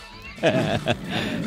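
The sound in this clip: A Malayan tiger roar sound effect, a short, gritty snarl with a couple of strong bursts that trail into a rougher, lower rumble.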